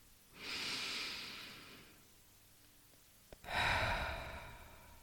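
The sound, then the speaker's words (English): Slow, deep breaths during a guided meditation: two long, airy breaths, each lasting about two seconds, separated by a quiet pause with a faint click, the second breath slightly louder and fuller. No voices. “let go of all the air. Let's do two more breaths together. One more breath.”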